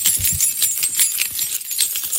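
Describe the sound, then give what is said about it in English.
Keys jangled by a crowd throughout a college football game at a huge stadium: a dense, continuous, bright metallic shimmer of countless keys shaking at once, steady in loudness with no clear individual jingles. “Do you know what that is? Well, you're shaking your keys? Yeah, that's all they do. Everybody takes their keys out of their pocket. And they shake their keys for the whole damn game.”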